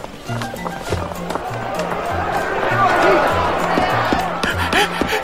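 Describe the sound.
Running footsteps of a thief fleeing after trying to snatch a purse, a rapid, evenly spaced patter that continues throughout over a busy, rhythmic background.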